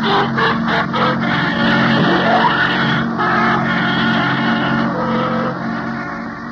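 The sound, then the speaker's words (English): A taxi cab drives away with a loud, steady engine rumble and broad road noise that holds for several seconds and eases slightly toward the end. “See Frank get into the cab and drive away.”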